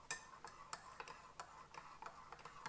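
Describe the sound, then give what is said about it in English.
A spoon stirs freshly boiled water in a mug, making many light, regular clinks against the sides in a steady ticking rhythm over a faint background hiss. “So I am filling the mug with hot water because I just boiled the kettle again. I'm just going to grab a spoon and just give this a mix.”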